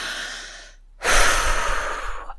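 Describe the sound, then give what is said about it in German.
A deep exhale through an open mouth follows a softer breath and a brief silent pause, then a long, loud, breathy rush that slowly tapers. “Und öffne dazu gerne den Mund und atme ganz tief”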